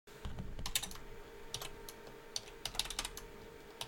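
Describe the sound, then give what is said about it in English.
Typing on a computer keyboard: a quiet, uneven stream of light key clicks with occasional sharper taps, and no voices. “I'll just type it out and then I'll say it.”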